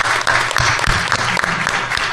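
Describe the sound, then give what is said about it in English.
Audience applause for a guest at a panel event, dense and steady clapping that holds at a fairly loud level for the whole stretch, with no pause and no clear voices above it. “I'd like to ask everybody in the audience, could you please give Barbara a round of applause?”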